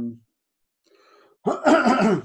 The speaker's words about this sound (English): horrible time to get a frog in my throat.